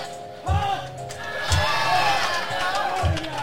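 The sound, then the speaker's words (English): A crowd at a wrestling event cheers and chants in support of a wrestler. The steady roar of many voices is broken by a few low, heavy rhythmic thumps. “Crowd behind Calvin. Yeah. Everybody seems like they're in Calvin's corner.”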